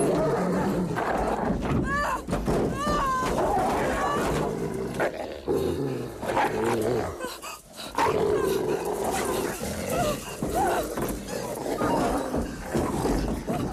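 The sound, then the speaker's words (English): Wolves snarling and growling as they climb onto a car with a woman inside, harsh aggressive snarls and yelping cries running almost continuously through a loud, busy scene. “Wolves climb the car with Kate inside.”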